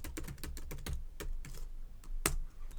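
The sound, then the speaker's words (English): Keys clatter on a computer keyboard in an irregular burst of many quick keystrokes, a brief pause, then a few more taps including one sharp, louder press. “Now, let's see. I'll just type that in.”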